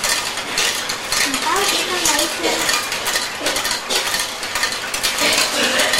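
A spoon stirs a drink of sugar, milk and water, giving steady scraping and clinking that runs through the whole clip at an even, moderate level.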